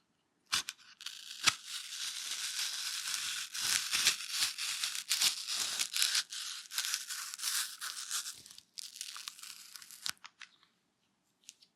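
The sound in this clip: A knife cuts into food with a crisp, crackling crunch that runs almost continuously, then trails off into a few sparse snaps near the end. Fairly quiet, with no talking.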